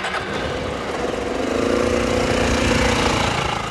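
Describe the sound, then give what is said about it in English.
The engine of a 2007 Suzuki Bergman motorcycle runs with a steady, loud mid-pitched drone. It grows slightly fuller and louder partway through, and nobody speaks over it. “put on his helmet, snapped the chin strap, and got on his 2007 Suzuki Bergman”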